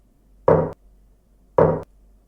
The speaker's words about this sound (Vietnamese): Tiếng gõ cửa lại tiếp tục vang lên.